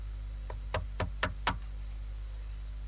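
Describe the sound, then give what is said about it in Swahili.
Knocking on a door: a quick, evenly spaced run of a few firm knocks, the first faint and the rest louder, over a low steady hum. “We pige hodi kwanza. Mie ntasema bure, we upige hodi.”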